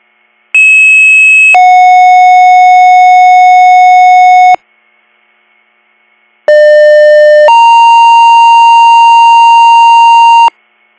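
EMS pager dispatch alert tones sound in two loud bursts separated by a silent pause. Each burst is a short steady tone that shifts into a longer held tone of a different pitch.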